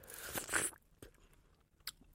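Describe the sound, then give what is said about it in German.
Biting into a juicy dark red strawberry produces a wet, crunchy burst at the start, followed by a few faint chewing clicks and quiet moments. “Aber wenn du jetzt in die dunkelrote mal reinbeißt, zum Vergleich.”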